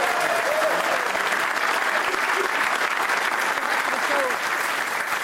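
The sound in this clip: Audience applause for a panel of guests at a live event: strong, continuous clapping from a large crowd, steady in level and easing slightly toward the end.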